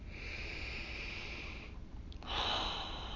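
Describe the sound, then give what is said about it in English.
A gentle human breath in and out during a guided relaxation exercise: a soft, drawn-out airy inhale, a short pause, then a slightly fuller exhale, quiet and alone. “take a gentle breath in and out”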